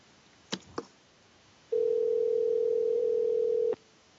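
Ringback tone of an unanswered telephone call: two faint clicks, then one steady, low, buzzing ring lasting about two seconds before cutting off into silence.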